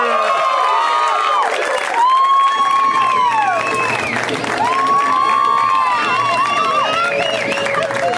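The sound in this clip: A crowd cheers and applauds as a comedian is welcomed to the stage, with loud, sustained clapping and high whoops and shouts rising and falling throughout.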